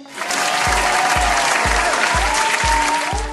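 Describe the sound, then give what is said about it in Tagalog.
Applause from a group during a morning lesson: a dense, loud wash of clapping over a steady, regular low thumping beat that pulses about twice a second throughout. “Palakpakan natin ang ating mga sarili.”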